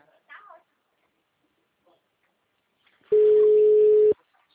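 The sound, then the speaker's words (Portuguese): A telephone tone after a dropped call: a single steady, fairly loud beep lasting about a second, heard after a brief faint voice and near silence. “Oi, alô. Oi, a ligação caiu.”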